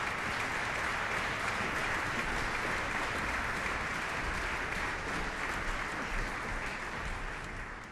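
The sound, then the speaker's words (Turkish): Concert audience applauding after a cello performance, a thick, sustained wash of many hands clapping that stays steady and loud before easing slightly at the very end. “Violonsel sanatçılarımız bekliyorlar. Alkışlar devam ediyor. Wisbiczka bir kez daha izleyicileri selamladı.”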